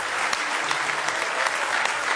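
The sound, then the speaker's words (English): A church audience claps hands in praise. The applause is dense and lively, with a steady wash of clapping and a few sharper claps standing out throughout. “Give him a real good hand clap of praise if you love him.”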